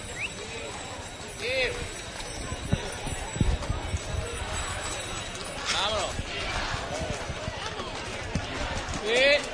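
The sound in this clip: Horses' hooves on pavement as a religious brotherhood's procession with a silver cart sets out in Huelva, with scattered clops mixed into constant crowd murmur and talk.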